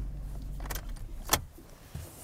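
A car parks in the dark before dawn in below-freezing cold near a sage-grouse lek: a low engine rumble under a jangle of keys and a sharp click, ending with a soft thump.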